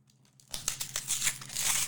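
Crinkly tearing as the inner wrapper of a card pack is pulled open after the outer seal is broken: a burst of crackling rips that starts sharply and continues in uneven bursts, fairly quiet.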